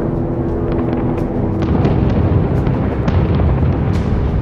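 Bombs explode during an air raid on battleships, in a loud, continuous rumbling barrage punctuated by many sharp blasts throughout.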